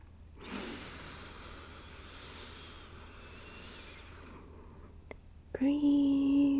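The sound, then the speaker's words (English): Slow guided breathing: one long, airy breath hisses steadily for about four seconds, followed by a faint click and then a short, humming voiced tone at the end. “Breathe out. Again, breathe in.”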